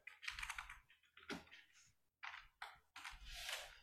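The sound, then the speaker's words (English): Someone types on a computer keyboard in quick bursts of clicking keystrokes, several runs separated by brief pauses, faint and with no talk. “I want you to Google, type in Russ Wilson's salary.”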